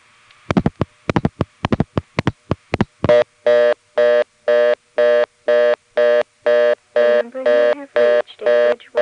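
Telephone reorder tone on a call to a not-in-service number in Bridgewater, Virginia: a quick string of sharp clicks, then many evenly spaced, buzzy tone bursts repeating at a fast, steady pace.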